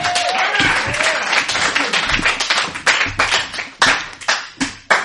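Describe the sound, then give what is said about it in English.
A live show audience bursts into applause with cheering at first. The dense clapping then thins into scattered, separate hand claps that fade between hits toward the end. “Hi, guys, and thank you for clapping extra.”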